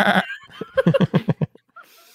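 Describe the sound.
A person imitating a goat's bleat: one brief nasal call, then a rapid stuttering run of wavering, bleat-like pulses, ending with a faint trailing sound.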